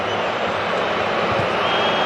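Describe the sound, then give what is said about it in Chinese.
Football fans booing in a stadium during a Saudi Arabia match, a loud, dense crowd roar that holds steady with no breaks. “沙特队在一个边路连续无效的控球，也引起了现场球迷的嘘声。”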